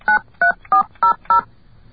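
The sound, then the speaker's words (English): Touch-tone telephone keypad dialing a number: five short, loud two-note beeps at an even, steady pace, each holding a constant pitch. “Using your touch tone. Okay, now I'm going to enter your number. A full telephone number. I'm entering your number now.”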